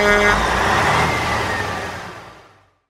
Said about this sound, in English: Lorry.